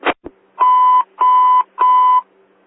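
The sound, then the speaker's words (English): A loud electronic bell ringing three times, three even, steady mid-pitched tones with short gaps between them, after a brief click at the start. “Bell's ringing.”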